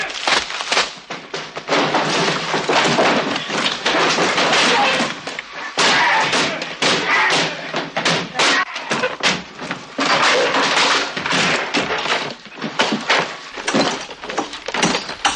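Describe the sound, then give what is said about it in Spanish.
Furniture is kicked, smashed and broken apart as a house is ransacked, with beds broken and drawers knocked out: many loud, irregular wooden thuds, slams and cracks in rapid bursts, with brief pauses between clusters. “Rompen las camas, rajan los colchones, desfondan los cajones y vacían los baúles.”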